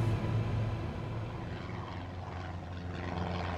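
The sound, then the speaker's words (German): Propeller drone from three twin-engine Cessna Skymaster planes flying in formation between Florida and Cuba. It is a steady low hum with little change for the whole clip. “Drei zweimotorige Cessna Skymaster fliegen im Verband nach Süden Richtung Kuba.”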